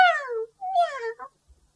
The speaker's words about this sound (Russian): мяу да мяу. Вот какой глупый котенок.